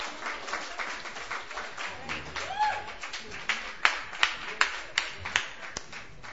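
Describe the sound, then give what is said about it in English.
Applause at an open mic night for a performer: a steady patter of many hands clapping, ending in a few louder, evenly spaced claps. “Another round of applause there.”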